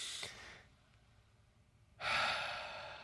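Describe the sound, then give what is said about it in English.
A group taking a deep breath together and letting it out slowly: a short, soft inhale, a quiet pause, then a louder, drawn-out breathy exhale that gradually fades. “let's take a deep breath, ready? And then just let it out real slow, ready?”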